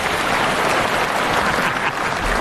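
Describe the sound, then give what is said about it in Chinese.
Audience applause after a traditional opera singing performance, a steady, dense clapping that runs unbroken throughout. “哥们，都掌声发给你了。”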